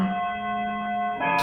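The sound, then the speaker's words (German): A clock striking the hour: a sustained bell-like tone with steady ringing overtones holds throughout, and a fresh strike begins near the end. “Dann mal Glockenschlag. Ich wollte gerade sagen. Die Uhr schlägt auf, ja.”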